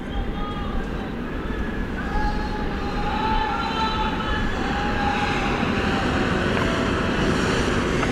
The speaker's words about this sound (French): le train 5046 en provenance de Béziers est annoncé avec un retard de 20 minutes environ.